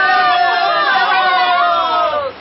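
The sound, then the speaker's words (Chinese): A large crowd cheers and shouts as a fleet of ships comes into harbour, a loud, dense, continuous wall of many excited voices that eases off only at the very end. “在民众的欢呼声以及响亮的歌舞声中，船队靠岸了。”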